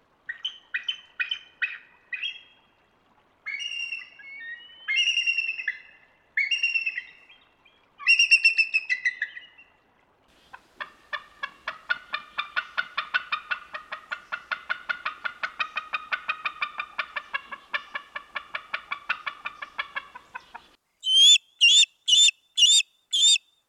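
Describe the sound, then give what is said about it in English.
Bald eagle calls: a few short, high, piping phrases lead into a long, steady chatter of rapid squeaky notes. The series ends with a handful of louder, shrill, separate cries. “You may know, but that very collection of sounds were all made by the bald eagle.”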